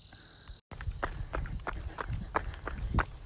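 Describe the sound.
Running footsteps from a runner just past a quarter marathon, about 6.65 miles into a long run: quick, steady, rhythmic footfalls, each a soft thud with a light scuff, continuing after a brief cut near the start.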